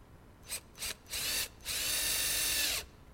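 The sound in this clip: A power drill fitted with a hex bit drives a hex head screw: two short buzzing blips, then a longer burst, then a steady high whir lasting just over a second.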